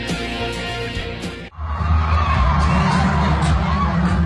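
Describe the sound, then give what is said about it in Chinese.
Fans scream and cheer at a snowboarding competition show in a Beijing stadium. The loud crowd roar bursts in after a brief opening passage and stays dense and steady to the end. “如果只听粉丝们的尖叫声，你可能以为这是某个明星的演唱会，但其实这只是在鸟巢进行的费雪单板滑雪比赛中的一个表演环节。”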